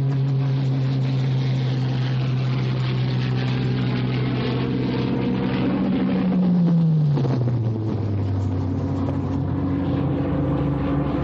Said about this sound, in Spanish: Una avioneta se les acerca volando bajo.